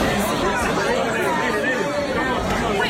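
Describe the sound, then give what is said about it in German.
People chat in a nightclub on Ibiza after a sudden power outage, a steady, even murmur of many overlapping voices with no music. “Wie wir hören, hören wir wenig. Nur Leute, die sich wahrscheinlich darüber aufregen, ja, dass der Strom plötzlich ausgefallen ist.”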